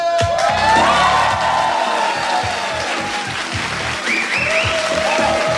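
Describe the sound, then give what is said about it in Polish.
Applause and cheering from a crowd celebrate a radio station's 30th anniversary, with steady clapping and scattered whoops over a rhythmic musical backing. It is loud and continuous throughout. “W tym miejscu zwykle duże oklaski są.”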